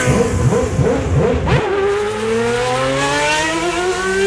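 Formula 1 race cars accelerating at the race start: a loud, high-pitched engine whine, revving unevenly at first, then climbing steadily in pitch as the cars pull away.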